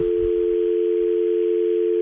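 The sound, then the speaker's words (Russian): Telephone dial tone: a steady, unbroken electronic hum at one pitch that holds evenly for the whole moment, alone and without any voices. “Я счастлив, что у нас гудит гудок. Господа, гудок гудит.”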